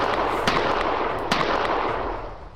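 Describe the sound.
Handgun gunfire sound effect: two sharp cracks cut through a dense, steady rushing noise that eases off slightly toward the end.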